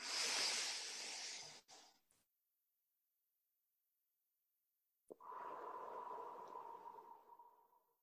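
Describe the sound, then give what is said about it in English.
Deep breathing during guided relaxation: one long, airy breath, a pause of near silence, then a second slow, soft exhalation that gradually fades out. “Now let's take a deep breath in and out together.”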